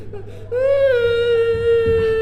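A child's crying in a staged comic sketch: a sustained, high-pitched wailing whimper that rises in after a soft start and holds a steady tone for nearly two seconds.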